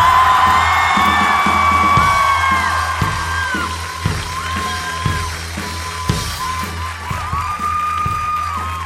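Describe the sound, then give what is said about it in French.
An audience cheering and whooping for a musician called to the stage, with sustained shouts and high calls at the start that gradually settle into a lower roar. “On acclame Lucas de la Rosa.”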